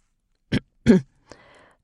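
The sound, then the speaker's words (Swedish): A woman clears her throat at a microphone: two rough, throaty bursts in quick succession, then a shorter, softer rasp that trails off into quiet. “Hon vinklar ned mikrofonen och harklar sig.”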